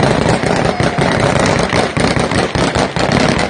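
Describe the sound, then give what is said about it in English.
Gunshots ring out outside the airport in Kabul, where crowds wait to enter. Many rapid reports blend into a loud, dense crackle over a constant low rumble. “you can hear the gunshots, so things are going beautifully right outside the airport.”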